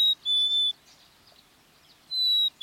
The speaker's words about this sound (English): We're hearing native birds, a house wren, black-capped chickadee,